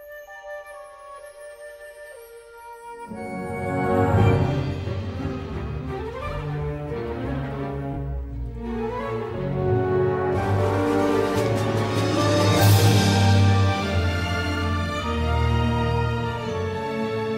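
Instrumental film score cue built on the Hungarian scale, opening with a faint, thin high tone before fuller instruments enter and the music swells louder and richer toward the end.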